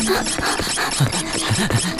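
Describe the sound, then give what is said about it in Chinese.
Harsh, continuous rasping of an electric drill at work on a door during a break-in, loud and steady for about two seconds with a gritty, squealing edge. “跟你说我是施工队的嘛，这不电钻都打来了。”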